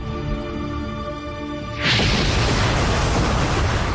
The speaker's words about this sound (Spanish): Al tiempo que Scafaro se desmorona, el helicóptero explota en una gran bola de fuego